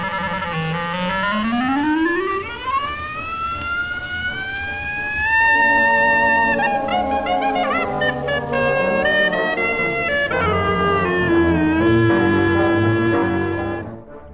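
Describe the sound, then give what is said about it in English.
A 1924 composition for solo piano and jazz band plays, opening with a long, smooth upward-gliding reed line, then sustained brass and wind chords weaving together, steady and fairly loud throughout. “Rhapsody in Blue is a 1924 musical composition by the American composer George Gershwin for solo piano and jazz band, which synthesizes elements of classical music with jazz-influenced effects. And it sounds like this.”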